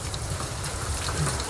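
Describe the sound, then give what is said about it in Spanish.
Rain falling as a steady, dense hiss of countless drops, even in level throughout with no other sounds standing out. “Los ojos cerrados, bajo la lluvia.”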